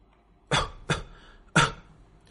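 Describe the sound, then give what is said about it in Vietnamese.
Dry coughing: three short, sharp coughs, the first two close together and the third after a brief pause, moderately faint with quiet in between. “Chỉ mới ho khan mấy tiếng, khắp người truyền đến cảm giác đau đớn khiến cho Hữu Cầm Huyền Nhã”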